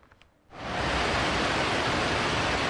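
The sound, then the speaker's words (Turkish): Floodwater from overflowing streams rushing through flooded city centre streets, a loud, steady roaring wash that begins abruptly after a brief quieter moment. “Arkadaşlar, şehir merkezi burası. Bayağı kötü, şuraya yanaşamıyorum. Orada insanlar var. Dereler taştı, caddeler göle döndü. Araçlar sürüklendi,”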